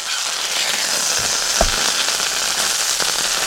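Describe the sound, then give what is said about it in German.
A charcoal grill is fired up with dense, continuous crackling and hissing, scattered small pops and one brief, deeper thump near the middle. “Ja, der Grill wird wieder angeschmissen.”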